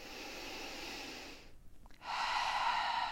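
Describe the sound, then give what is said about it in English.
A deep breath in and out as a breathing exercise: two long, soft, airy breaths with a short pause between them. Quiet, with no talking. “First, a normal sigh or deep breath in and out.”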